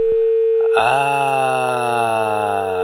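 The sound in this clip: A telephone dial tone sounds after a dropped call on a radio call-in line. A steady pure tone is joined by a louder, buzzy tone rich in overtones, which holds evenly to the end.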